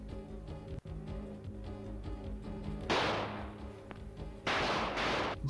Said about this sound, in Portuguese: Ai, deu dois tiros.